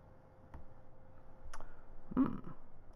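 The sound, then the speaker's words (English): A computer mouse gives a few faint, separate clicks, the later ones a little louder, over a quiet background. “Let us click on the record.”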